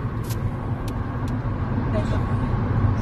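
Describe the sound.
A car being driven produces a steady low engine and road rumble throughout, an even droning hum with no distinct shifts or separate events.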